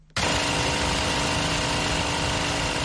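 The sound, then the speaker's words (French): A generator drones loud and steady while powering a bakery's flour mill in Yaoundé. The engine noise starts abruptly after a moment of quiet and then runs on without a break. “Un générateur alimente le moulin à farine de la boulangerie Obili, un quartier de Yaoundé.”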